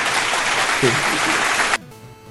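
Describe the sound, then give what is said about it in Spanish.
A short burst of applause congratulating someone, a dense steady clapping with a voice briefly heard beneath it, cutting off abruptly after under two seconds. “Felicidades a Marvin Camacho Fallas. Un aplauso y un abrazo.”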